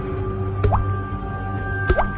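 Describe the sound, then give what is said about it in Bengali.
A couple of raindrops fall on a person, each landing as a quick, faint plop with a short upward-gliding tone, spaced apart over a steady low background hum. “এমন সময় টপটপ করে দু একটা বৃষ্টির ফোঁটা আমার গায়ে পড়ল।”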